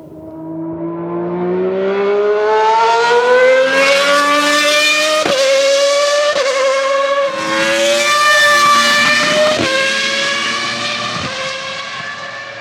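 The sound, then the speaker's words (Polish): A racing car accelerates hard, its loud engine whine climbing steadily in pitch, broken by several brief dips as it changes gear. “Samochód wyścigowy.”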